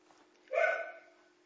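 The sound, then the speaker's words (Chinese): A dog barks once through an open microphone during an online class call. The bark is a short, faint, yelp-like sound over a steady low electrical hum. “听到你们的狗叫声了？”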